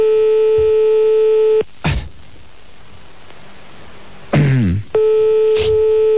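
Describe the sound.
A telephone ringing on a late-night call, heard from the caller's end as a steady buzzing ring tone. It cuts off after about a second and a half, a few clicks and thumps follow, then the tone returns.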